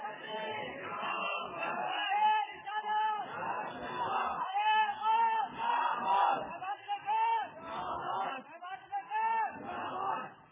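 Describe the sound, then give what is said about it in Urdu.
A crowd at an Urdu-language Islamic sermon chants a religious slogan, shouting together in several loud, rhythmic bursts separated by short pauses. “اثر ہوا ہے تو ذرا آپ نعرہ لگا دیجیے”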